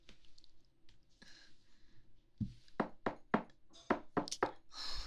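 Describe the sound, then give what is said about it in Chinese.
Loud, forceful knocking on a door: quieter scuffing and taps at first, then many heavy, irregular bangs in quick succession that keep going to the end. “疯了吗？这么使劲的敲门，还大呼小叫的，搞什么啊？”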